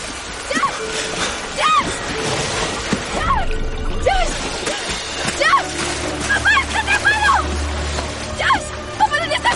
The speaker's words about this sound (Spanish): Max se lanza al agua y nada hacia ellos.